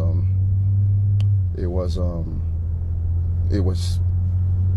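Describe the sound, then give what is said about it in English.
Low, steady engine rumble fills the cabin of a moving car during an interview, a constant drone under people talking. “They were in a car. That's what you're hearing.”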